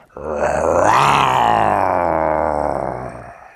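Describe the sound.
A person imitating a jaguar with a deep, rough, growling roar that swells quickly and holds steady for about three seconds before cutting off.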